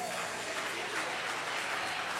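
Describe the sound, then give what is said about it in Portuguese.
Joyful hand clapping from a church audience: dense, steady applause that fills the whole stretch at an even loudness, with no voices standing out. “Maravilha, mais palma alegre para o Rei Jesus.”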